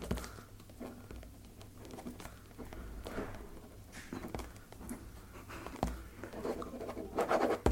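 Pen scratching across paper as an autograph dedication is written, a steady run of dry, scratchy strokes with brief pauses between them, moderately quiet throughout.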